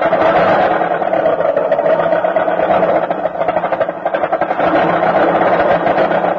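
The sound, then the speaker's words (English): A car engine bucking and sputtering on a cold winter morning start, a rough, continuous chugging drone with uneven sputtering pulses throughout, fairly loud and steady with a brief dip midway, no voices. “on these cold winter mornings, have you noticed the peace and quiet broken by sounds like this?”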